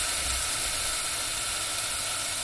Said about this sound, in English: nice little butter mushrooms. Right, I'm going to throw those in.